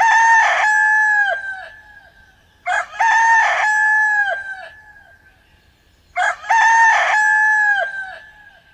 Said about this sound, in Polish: Kogut.